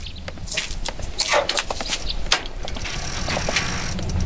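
Bicycle being ridden, with the freewheel ratchet ticking and mechanical rattles in a quick irregular series over a low steady rumble, no talk.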